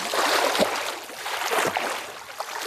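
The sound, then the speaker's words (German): Water splashing and sloshing as someone swims front crawl for a few metres, dipping the head under for a stroke; a steady, churning wash of splashes with no voices. “Chruschtschow taucht den Kopf einen Schwimmzug lang unter Wasser. Du musst wissen, was du tust. Chruschtschow krault ein paar Meter.”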